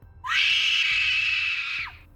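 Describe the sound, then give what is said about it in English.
A woman screams, one long, loud, shrill cry held steady for nearly two seconds before it cuts off sharply with a downward slide. “She peered at the still waters and screamed.”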